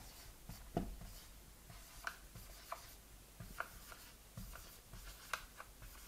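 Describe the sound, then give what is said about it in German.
Handwriting as someone notes something down: faint, soft scratching strokes and light taps in an irregular series, quiet and with no voice over them. “Schreibe ich mal hin.”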